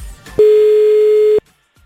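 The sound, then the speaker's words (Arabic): A telephone tone sounds while a contestant is being called in a phone-in competition. It holds one steady pitch for about a second, loud and alone, then cuts off abruptly. “يلا خلينا نتصل بأول شخص.”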